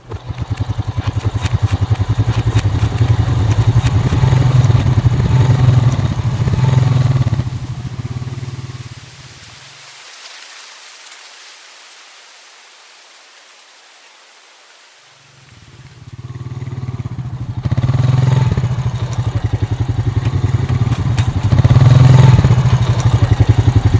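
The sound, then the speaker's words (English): Engines of scout bikes riding off make a loud, rough, low drone. The roar drops to a quieter rumble in the middle, then swells back to full strength and holds to the end. “Let's take our scout bikes over to meet them.”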